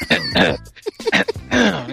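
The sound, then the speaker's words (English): A man loudly clears his throat with a voiced, exaggerated rasp. It comes in a few short bursts with shifting pitch, done as a warm-up before a poem. “I'm going to clear my throat.”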